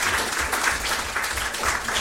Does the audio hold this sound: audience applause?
yes